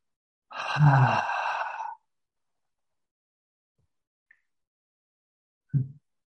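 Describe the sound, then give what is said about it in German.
A deep breath during a guided breathing exercise, released in one long, audible sighing exhale. Silence follows, then a brief second breath near the end. “Vielleicht 3 tiefe Atemzüge. 3 tiefe Atemzüge. Vor allem tief ausatmen.”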